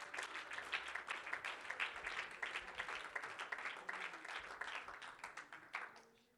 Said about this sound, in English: In the mighty name of Jesus, would you clap your hands to the Lord in this place?